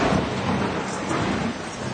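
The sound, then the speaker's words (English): Heavy rain pours down outside in a dense, steady hiss with a low rumble beneath it, sustained and even throughout. “Then it began to rain really hard.”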